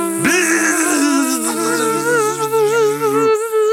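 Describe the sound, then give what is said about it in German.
A voice imitates buzzing bees with a sustained, wavering nasal hum that holds steady for about three seconds, loud and on its own, with no talk over it. “was sind das denn für Bienen da oben?”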